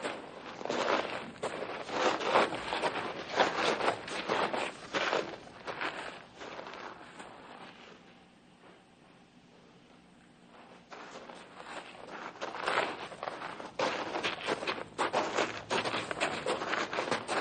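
Footsteps of people walking fall in a steady rhythm, loud at first, fading almost to silence midway, then returning just as loud.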